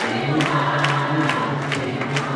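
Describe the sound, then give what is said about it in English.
A crowd of women chants Dilma Rousseff's name at Planalto presidential palace, with a rhythmic, evenly repeated chant pulsing over dense, continuous crowd noise. “This week, Dilma Rousseff descended the famous ramp designed by Oscar Niemeyer in the presidential palace of Planalto to a crowd of women chanting her name.”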